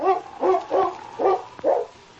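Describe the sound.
A dog barks five times in short, mid-pitched, moderately loud bursts with brief gaps between them. No one talks over the barking.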